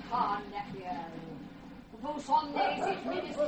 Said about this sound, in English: I think those dogs know we're in here.